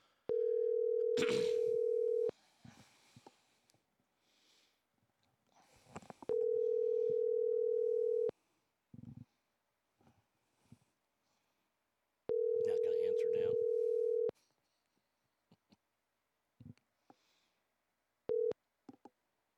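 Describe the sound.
Ringback tone of an outgoing telephone call: three long, even rings separated by pauses, then the brief start of a fourth. Faint scattered sounds fill the gaps between rings.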